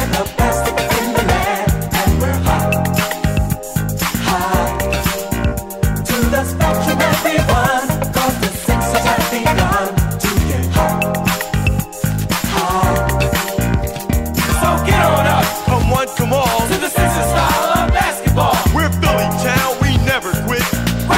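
A recorded song plays loud and continuous, with a steady driving beat and full instrumentation running without pause from start to finish.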